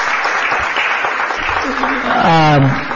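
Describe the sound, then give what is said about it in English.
Applause for city employees and department heads fills the whole stretch as a dense, steady patter of many hands, with a voice rising over it near the end. “can our city employees and department heads just give them a round of applause? They're all back there.”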